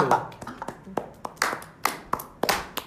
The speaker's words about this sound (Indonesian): aplaus